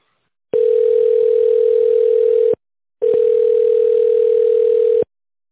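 Telephone ringing tone while a call to a company waits to connect: two loud, steady, mid-pitched tones, each about two seconds long, with a short silence between them.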